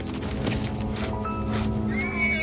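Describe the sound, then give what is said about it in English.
A horse held on a rope lunges and heaves around a corral, whinnying with hoof clops over a dense, continuous background. “Still holding the rope, Tom follows the horse as it lunges and heaves around the corral.”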